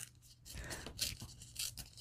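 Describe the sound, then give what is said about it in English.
Paper tearing as a picture is ripped out of a printed sheet: a few short, rough ripping bursts, fairly quiet and heard alone. “I'm just going to tear out the picture of the faces because that's really all I want.”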